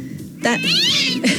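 Cat meowing sound effect: a short pair of high, plaintive meows, the longer one sweeping and wavering, heard alone.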